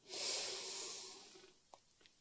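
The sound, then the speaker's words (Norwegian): A single deep, slow breath drawn as a soft, airy hiss for about a second, fading out. It is followed by a couple of faint clicks in quiet. “Pust godt inn. Og ut. Og godt inn.”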